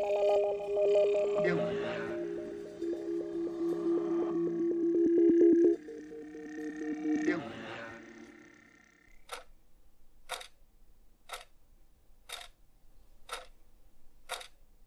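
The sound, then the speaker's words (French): A kitchen clock's second hand ticks in a steady series of sharp, crisp clicks about a second apart, following an earlier stretch of sustained tonal sound, with no voices. “Ça, c'est le bruit de la trotteuse de la pendule de ma cuisine.”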